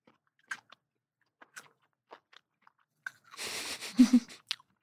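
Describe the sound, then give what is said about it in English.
Crunching and chewing of a carrot eaten on its own: faint, scattered crisp crunches, then a louder, denser stretch of chewing near the end. “I want you to start by just eating the carrot on its own and just think about the flavor.”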